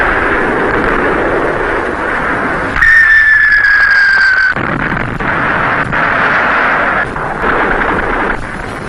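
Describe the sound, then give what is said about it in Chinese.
Artillery cannon fire in a wartime radio drama: a loud, steady rumbling roar with a high whistling tone that slides slightly downward through the middle, then the heavy roar carries on. “怎么会有这么多的大炮呢？”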